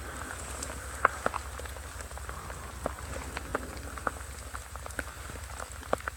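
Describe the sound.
Rain falling in a dark forest at night during an orienteering race, a steady wash of noise with scattered sharp drops ticking throughout.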